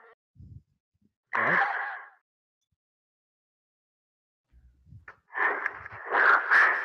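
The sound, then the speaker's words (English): Close-miked breathing from a microphone held right at the mouth: a short, loud, breathy burst, then after a quiet pause a longer and rougher run of exhalations, with faint low puffs in between. “We can just hear you breathe. Yeah, that's because I'm holding my mic super close to my mouth.”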